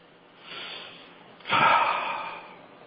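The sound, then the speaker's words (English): A deep breath drawn in at the start of a guided centering meditation: a soft airy breath, then a louder, longer rush of breath that fades slowly, with no talking. “So, let's get started with a centering meditation from our dear friend, Archangel Gabriel. Deep breath.”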